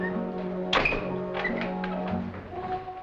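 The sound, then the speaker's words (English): A single dull thunk as an office door is shut, standing out briefly over steady sustained tones that run through the whole clip. “Philippe shuts Durand in his office and listens at the library door.”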